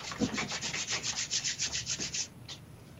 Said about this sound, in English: Let's rub your hands together. Very strong.